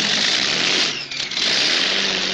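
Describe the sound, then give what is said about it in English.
A Rolls-Royce racing aircraft engine of 3,000 horsepower roars, spinning its propeller at 14,000 RPM: a loud, harsh, steady roar that dips briefly midway, then returns full. “This Rolls-Royce fire breather delivers 3,000 horsepower with a propeller speed of 14,000 RPM. It's virtually trying to tear itself apart.”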